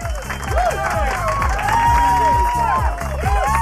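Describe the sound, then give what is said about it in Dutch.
Studio audience applause and cheering greet a phone-in caller, loud and continuous over upbeat music with a steady thumping bass beat and swooping tones. “Applaus voor Raymond.”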